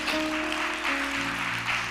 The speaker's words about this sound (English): Let's give the praise team a round of applause for their obedience.